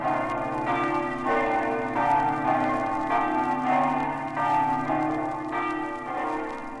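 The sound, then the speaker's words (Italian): Church bells of many churches ringing together in Buia, Friuli, Italy, in a 1957 recording: a dense, overlapping wash of clanging peals with repeated strikes, sustained and steady throughout. “Ad essa si uniscono a farle coro tutte le campane delle 12 chiese di Buia”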